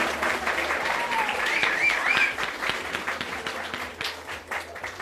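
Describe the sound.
A crowd of students at a high school, Escuela Preparatoria número 9, claps and cheers in steady, sustained applause mixed with crowd voices.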